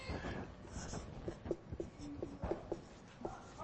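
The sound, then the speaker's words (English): Handwriting on paper, a pen scratching out a quick note in scattered strokes. Several sharper scrapes stand out against a steady low background. “I'm just going to write this real quick.”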